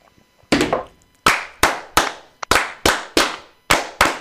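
Masonic brothers clapping together in unison for a toast fire: a volley of loud, sharp claps in a steady, fairly even rhythm, with no talk over them.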